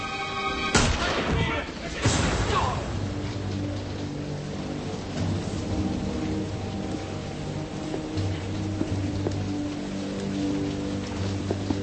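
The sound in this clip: Gunfire: a couple of sharp, loud shots early on over a dense crackling, rain-like noise, with low sustained musical tones running underneath throughout.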